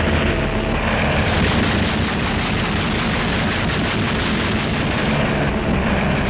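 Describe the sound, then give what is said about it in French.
Cannon fire during the Operation Torch Allied landings on the Moroccan beaches on 8 November: a loud, continuous, roaring rumble with no clearly separate shots, steady throughout. “Malgré une surprise totale, il fallut tirer le canon.”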